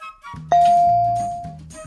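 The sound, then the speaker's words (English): A host strikes a bell once, a clear, bright ding that rings out and slowly fades over about a second above a low, murmuring background. “Oh, hold on. I gotta ring the bell first.”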